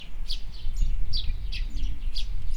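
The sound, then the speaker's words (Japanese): Birds singing outdoors beside a road with passing cars and a little wind: a series of short, high chirps repeats over a steady low rumble. “鳥が鳴いてます。”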